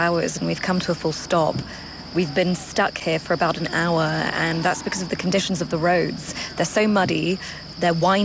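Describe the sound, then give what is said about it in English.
Crickets chirp at night along a muddy mountain road, a steady high-pitched trilling that runs continuously beneath a person talking throughout. “That is the sound of crickets because it's now nighttime.”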